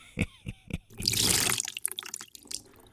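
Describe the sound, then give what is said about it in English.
Cold water is squeezed from a magic sponge onto a footballer's face. A few soft drips come first, then a loud gushing splash lasting about half a second, then scattered spattering drips. “Cold water and a magic sponge in the face sorts everyone out every time.”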